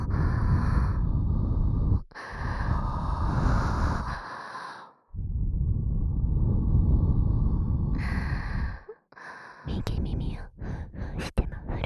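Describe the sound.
Soft, airy breaths are blown onto the listener in long, steady exhales separated by short pauses. Small clicking sounds come at the end.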